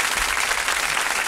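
Brief, loud, continuous applause for the Mendoza champions of an Argentine national team championship held in Santa Fe. A dense, even wash of many hands clapping with no pauses.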